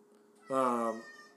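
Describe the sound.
A single short cat meow, a brief tonal call rising out of a quiet background hum.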